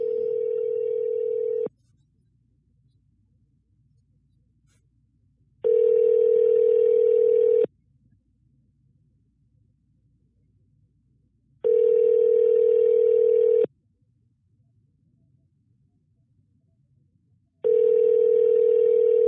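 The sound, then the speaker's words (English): A telephone ringback tone sounds as a call goes unanswered: four steady single-pitch tones, each about two seconds long, separated by about four seconds of near silence. The last tone is cut off. “Somebody sent me their number, but they're not picking up. I'm going to leave a message probably.”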